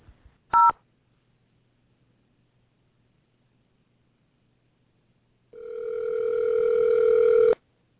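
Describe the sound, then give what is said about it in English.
Telephone keypad tones while dialing into a jewelry store's phone menu: one short, clear beep, then a long pause of silence, then a steady, sustained electronic tone lasting about two seconds before cutting off. “To speak to a team member, please dial 0.”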